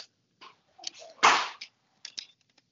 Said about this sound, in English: Because I think I've just screwed up this Nerf gun. I shouldn't have taken it apart. I'm currently working on the thing.